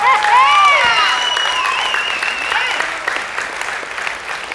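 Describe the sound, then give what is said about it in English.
An audience applauds with loud, hard clapping, joined at first by a few high cheering whoops, then the ovation eases gradually over several seconds. “And Paul is on his feet and he is clapping hard and he wants us all to join in and he wants the right person to get the credit.”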